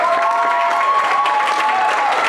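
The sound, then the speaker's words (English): Applause from an audience at a Sunday church service, a dense, steady wash of clapping with cheering voices mixed in, loud throughout. “Thank you, guys. Give them a hand.”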